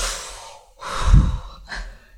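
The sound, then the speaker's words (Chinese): A deep breath drawn slowly and released with an airy sigh, followed by a shorter, softer breath, alone and fairly quiet. “就是在那一刻的时候，你要在心里面你就深呼吸”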